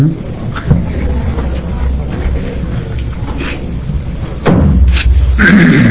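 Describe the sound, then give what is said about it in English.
A gavel strikes at a Senate hearing, giving a few dull wooden thuds with a heavier knock near the end over a steady low room murmur. “The gavel is ready to go down”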